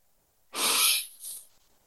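A deep breath drawn in and let out during a guided eyes-closed relaxation exercise gives two airy breath sounds, the first longer and louder, the second shorter and softer.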